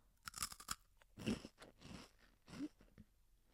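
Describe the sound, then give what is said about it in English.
Spicy dried pea snacks being crunched and chewed, with a few sharp, crisp bites and softer chewing between them. The sounds are faint and close, with no talking. “They're like these pea snacks, like dried peas. And these ones are a little bit, hmm, like spicy.”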